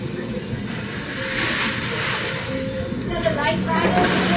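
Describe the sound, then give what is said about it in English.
Gardein scallopini frying in canola oil in a pan gives a steady, airy sizzle and hiss that runs throughout while a person talks. “And then I'll just start the pan with a little bit of canola oil. And then take the Gardein scallopini to the pan.”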